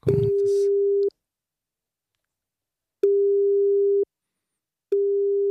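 Telephone line tone as a call is placed: a steady, pure, mid-pitched beep sounding three times, each about a second long and separated by silence, with a brief handling clatter at the very start.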